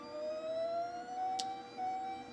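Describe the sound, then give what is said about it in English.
Pumps of a 3017M DPD chlorine analyzer speed up during its startup routine, giving a faint, steady electric whine whose pitch creeps slowly upward, with one brief high tick partway through. “You can hear the pumps starting to speed up.”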